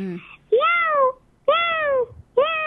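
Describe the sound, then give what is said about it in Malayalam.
A human voice imitates a cat, performing mimicry. It gives a few drawn-out, tonal meows, each rising and then falling in pitch, separated by short silences. “ചെറുതായിട്ട് ഒരു mimicry നമുക്ക് ഇതിവിടെ അവതരിപ്പിക്കാല്ലേ? First ഇവിടെ അവതരിപ്പിക്കാൻ പോകുന്നത് പൂച്ച.”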